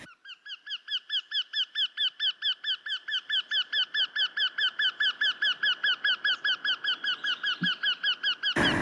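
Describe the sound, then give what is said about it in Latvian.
A Eurasian wryneck gives a long, even series of many short, nasal tee notes at an unchanging pitch in a quick, regular rhythm, swelling slightly in loudness over the first few calls. “Tītiņa balss ir nemainīgas intonācijas tī-tī-tī-tī.”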